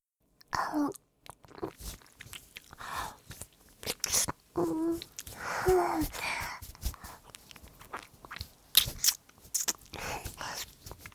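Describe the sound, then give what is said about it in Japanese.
Wet licking and sucking on a ring finger, many irregular soft smacks and slurps at close, quiet level, with short pauses between them. “次は、薬指を舐めてみましょう。”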